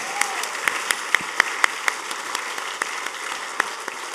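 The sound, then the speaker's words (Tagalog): An audience claps in worship during a Christmas church service, a crowd of hands with sharper claps standing out in a loose, fairly even rhythm. “close your eyes, when you close your eyes and you clap your hands, at pinalakpakan mo ang presensya ng Diyos, sabay-sabay, palakpakan niyo ang presensya ng Diyos. Palakpakan niyo ang presensya ng Panginoon.”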